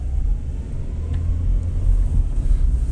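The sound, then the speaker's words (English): Deep, steady engine rumble from a red Dodge Challenger car driving, a loud low drone that holds evenly for the whole clip with no voices. “she just likes to hang around and drive around with her red Challenger”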